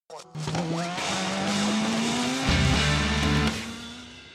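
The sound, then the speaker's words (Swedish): A short racing jingle for an IndyCar segment, built on a loud, sustained race car engine whine that climbs slowly in pitch. A heavier low drone joins it midway, and the sound stays dense and loud until it stops abruptly. “vi kör på lite Indycar, så på med jingeln då”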